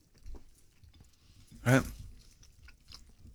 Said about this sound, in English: Sorry to eat in front of you.